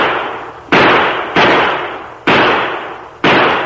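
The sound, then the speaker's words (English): Warning gunshots are fired overhead in a standoff: four loud, sharp bangs at uneven intervals. Each report has a hard attack and a long noisy tail that fades before the next shot, with no talk between them. “My shots didn't come within a dozen feet of him. That was a warning!”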